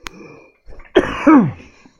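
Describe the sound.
Coughing after something went down the wrong pipe: a short sound is followed by one harsh, loud coughing burst that fades quickly.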